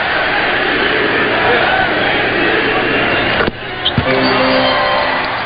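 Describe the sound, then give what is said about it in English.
A basketball snaps through the net as Donovan Mitchell scores his 39th point in an NBA game, Cleveland against Detroit. A single crisp, sharp hit cuts through steady loud crowd noise and is followed by a couple of softer thuds. “Did you hear that cool little sound effect? That was his 39th point. Did you hear it snap through the net?”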